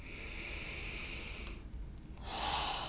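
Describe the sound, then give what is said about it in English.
A deep breath in and out during a guided breathing exercise with a hand mudra. Two long, airy, soft breath sounds are separated by a brief pause, and the second is louder and fuller. “let's take another deep breath in and out.”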